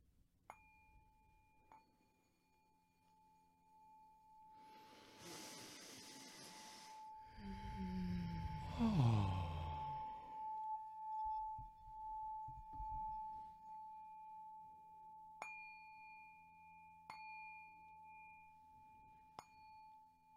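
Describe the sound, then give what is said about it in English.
A singing bowl rings out with a long, sustained, pure tone. It is struck at the start and a few more times near the end, and loud breathy rushes like deep breaths swell in the middle. “I just want to play the singing bowl real quick and do a deep breath with everyone, if you'll join me.”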